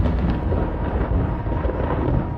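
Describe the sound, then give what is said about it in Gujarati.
A storm roars across the salt pans of Kutch, bringing heavy wind and drizzle. It is a dense, steady, full-bodied rush of wind and rain with no separate thunderclaps and no voices. “A powerful storm tears across the region,”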